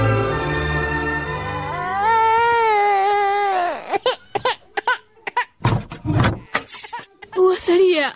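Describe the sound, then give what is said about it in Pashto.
A sick baby cries with a long, drawn-out wavering wail, then breaks into shorter, choppy bursts of crying. “ماشوم ناروغ دی، دای څومره شپه ده چې خوب نه ده کړی او د شیدو څکه نه کوي. څنګه ناروغ دی بابا؟ ماشوم خاص هم ژاړي.”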